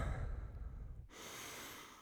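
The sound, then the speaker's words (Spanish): A deep breath, taken on cue as one of three slow breaths: a breathy rush of air that shifts midway to a softer, steady airy hiss, faint and with no talk. “Respira. Respira profundamente tres veces.”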